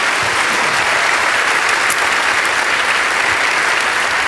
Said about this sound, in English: So, once again, put your hands together and let's welcome these panelists here to this stage.